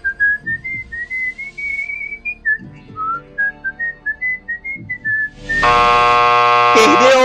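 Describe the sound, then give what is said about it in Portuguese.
A contestant whistles the national anthem in a timed comedy game-show challenge. The clear, wavering melody steps up and down through many short notes, then a loud, steady buzzer-like tone cuts in at the end. “Você tem 15 segundos para assobiar o hino nacional.”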